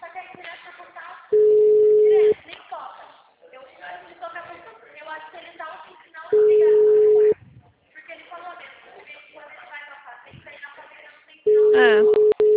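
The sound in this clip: Telephone busy tone from an unanswered call: three steady, one-second electronic tones spaced about five seconds apart, with voices talking quietly in the gaps between them.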